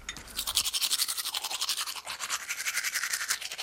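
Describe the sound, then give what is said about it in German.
Teeth are brushed with a toothbrush and toothpaste in fast, even scrubbing strokes. The bristly swishing holds a steady rhythm throughout with no pause, and no voices are heard. “So, jetzt noch Zähne geputzt. Ja, Zahncreme drauf, so. Ja. Und los.”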